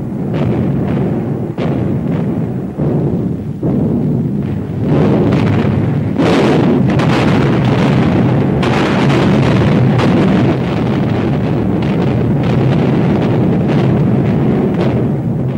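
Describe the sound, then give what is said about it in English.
Warship guns bombard the Normandy beaches on D-Day at dawn, pounding the Atlantic Wall: many heavy booming blasts, at first in separate thuds, then merging into a dense, continuous roar mixed with wind noise. “At dawn, the warships moved in with the big guns, bombing the beaches, hoping to rip through the Atlantic Wall. After a couple of hours, the firing ended”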